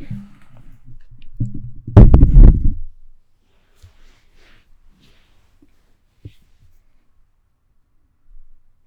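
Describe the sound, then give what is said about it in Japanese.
Handling noise from a microphone being moved: a soft rustle builds into a loud, deep rumbling bump lasting about a second, followed by a few faint scattered knocks and near silence. “ちょっとだけマイクを動かすので、ちょっと音ごめんなさい。”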